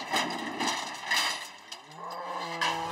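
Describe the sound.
Calf mooing in a cattle barn during hoof trimming, where a cow has stepped near it: a drawn-out, low, tonal moo rises out of rustling and shuffling noise in the second half, with a further call at the end.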